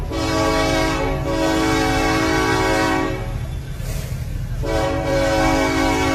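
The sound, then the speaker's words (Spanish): A locomotive horn blares in long, sustained blasts over the low rumble of a train at a crossing. It breaks off briefly midway, then sounds again just as loudly. “El tren está sumamente cerca.”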